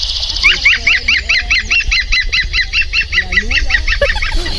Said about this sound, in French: Ça, c'est le chant du pivert. Donc si un jour, vous entendez un oiseau qui rigole, c'est le pivert.